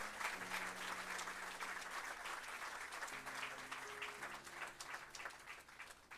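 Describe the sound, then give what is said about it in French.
A church audience applauding, steady and continuous clapping from many hands, kept faint and even throughout the whole stretch. “Est-ce qu'on peut acclamer le roi des rois”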